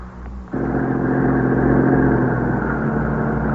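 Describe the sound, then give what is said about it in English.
An ambulance arrives at an old tenement building in the early morning hours. Its engine rumble comes in abruptly and then holds as a steady, fairly loud low drone, with no siren. “That's the ambulance, I guess.”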